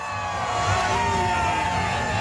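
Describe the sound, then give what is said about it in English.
A big crowd of supporters cheers as a convoy of RVs sets off from Victoria, BC. The cheering is sustained and even, with scattered whoops and shouts. “A big crowd of supporters joins to see them all off.”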